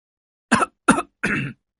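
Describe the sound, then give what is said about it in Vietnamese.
Violent coughing: three harsh, separate coughs in quick succession, the first two short and sharp, the third longer and rougher, each loud and alone against silence. “Những tiếng ho sặc sụa vang lên, cảm giác như nó ở ngoài sân thì phải.”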